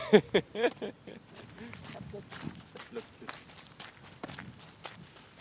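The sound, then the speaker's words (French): Footsteps crunch and squelch over damp winter ground, a few sharp steps at first, then a softer, steady run of shuffling treads. “On entend qu'on est en hiver, hein, y a un petit peu d'humidité sous les pieds.”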